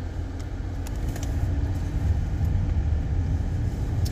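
A car is rolling along with a steady, low rumbling road and engine noise that swells slightly and then holds even, with no talk over it.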